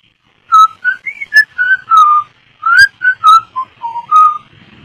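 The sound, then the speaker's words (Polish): A person whistles in imitation of a grandfather whistling to his pet parrot: many short, clear, loud whistled notes in quick phrases, wavering up and down in pitch with brief trills, heard alone. “Gwizdząca, bo dziadek się lubił z nią przekomarzać. I dziadek jej gwizdał”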